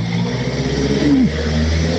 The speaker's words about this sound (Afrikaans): excuse, ek moes nou teen 'n kar hier kompeteer.